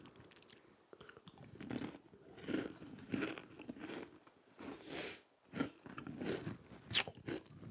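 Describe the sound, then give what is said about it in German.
Biting and chewing crunchy vanilla-flavored cookies: many crisp, crackling crunch bursts in an irregular rhythm, fairly quiet, with no talk. “Wenn es euch aufgefallen ist, wir essen heute Kekse.”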